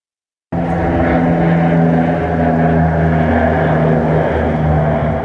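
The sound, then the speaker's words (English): Firefighting aircraft laying a retardant line over a wildfire burning south of a town: a loud, steady engine drone starts abruptly after a short silence and roars on without a break. “Aircraft laying a retardant line to help keep the 2 mile road fire burning out of control south of Sycamores from moving towards the town core.”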